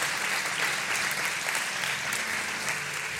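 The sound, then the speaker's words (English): Audience applause welcoming guests at an indoor morning gathering: steady, dense clapping from many hands, even in loudness from start to finish. “Let's give our guests a big hand.”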